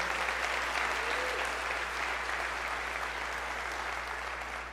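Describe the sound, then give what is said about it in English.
Church audience applauding to welcome the church family: continuous, dense clapping at an even level that thins slightly in the final moments. “can we just put our hands together and just give a big warm welcome to our City Hope family?”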